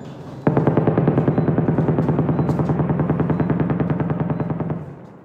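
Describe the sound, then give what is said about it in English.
Rapid automatic gunfire during intense shelling and bombing in southern Gaza: one sustained, loud burst of many fast, evenly spaced shots lasting about four seconds, then an abrupt stop. “Now he's in southern Gaza reporting on the bombings there. It's a very intensive shelling all around me.”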